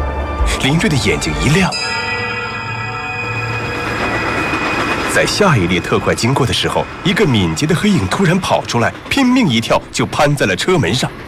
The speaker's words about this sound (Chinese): 又一列特快呼啸而过